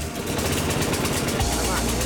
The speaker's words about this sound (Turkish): Evet, motoru çalıştırmayı başardık.